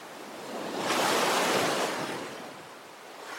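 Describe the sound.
Ocean waves wash onto the shore in a soft, broad hiss. The sound swells to a peak and then recedes as the water draws back.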